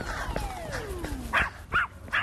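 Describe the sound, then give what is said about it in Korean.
A dog barks at passersby while its owner tries to lead it away: three sharp, mid-pitched barks in quick succession over the second half, standing clearly above a low background. “멈출 줄 모르는 제니의 짖음. 야, 제법 민폐겠는데요.”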